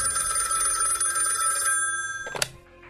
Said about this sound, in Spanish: el embajador Silvio Zavala recibió una llamada telefónica del director de la prisión municipal de Lesante, París